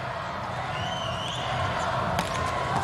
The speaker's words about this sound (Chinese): 所以这个时候用莱昂上来替补发球，要看看美国队队员的这个表情。 莱昂替补上来发球，怎么去发？